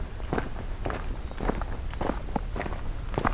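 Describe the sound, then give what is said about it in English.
Footsteps walking on a trail at night where a road gives way to dirt path: a steady series of soft, dull steps at an even walking pace. “I'm gonna walk for a minute into here, but not much more than that because it's dark.”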